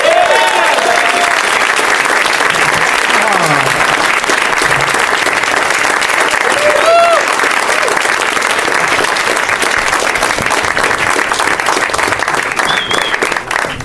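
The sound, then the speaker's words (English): Sustained audience applause welcoming guests to the stage, a dense, steady wash of clapping that holds at a constant loud level for about fourteen seconds, with a few brief whistle-like tones rising above it. “So please help me in welcoming to the stage Ricky Lindholm, Brett Gelman, Shane Moss, and Steve Agee.”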